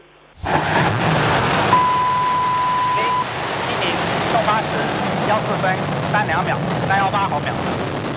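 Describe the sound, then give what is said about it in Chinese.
A Long March 7 Y-11 carrier rocket ignites and lifts off carrying the Tianzhou-10 cargo spacecraft: a sudden broad roar bursts in and holds steady, with a brief steady tone early on and voices talking over it. “8时14分，长征七号遥十一运载火箭点火起飞。”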